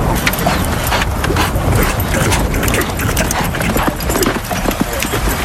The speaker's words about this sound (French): À présent, écoutons ce galop de cheval.